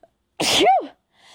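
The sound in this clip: A single sharp, loud human sneeze bursts out after a tiny click, with a breathy explosive onset that trails off into a brief, tapering whine, followed by a faint, soft tone near the end.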